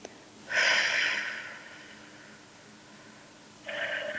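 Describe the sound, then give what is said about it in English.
A deep breath drawn in through the nose makes a loud rushing hiss lasting about a second. After a quiet pause, a steady breathy exhale through the mouth begins. “Take a breath. In through the nose, all the way to your toes, and then out through your mouth, like through a straw.”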